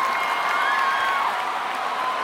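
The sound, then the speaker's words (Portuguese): Audience applause and cheering at a live concert, a dense, continuous roar of clapping and crowd noise holding a steady level, with a thin whistle-like tone above it. “Valeu, uma salva de palmas aí, gente.”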